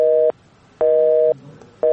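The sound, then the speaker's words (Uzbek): After a call is hung up, a telephone busy tone sounds as loud, steady beeps in an even on-off rhythm, with about three pulses heard. “Ammo u Ozodlik radiosidan qo'ng'iroq qilayotganimizni eshitishi bilanoq aloqani uzib qo'ydi.”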